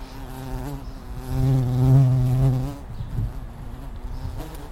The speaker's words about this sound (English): Carpenter bees. But don't worry, they don't actually sting.